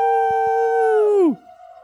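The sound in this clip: A video game howler pod creature gives a sustained, tonal howl that holds steady and loud, then bends sharply downward in pitch and gives way to a quieter, lower lingering tone.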